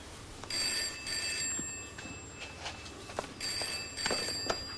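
A telephone rings in a home kitchen in two separate bursts of high, trilling bell tone, each lasting over a second. The ringing is fairly faint over a quiet background.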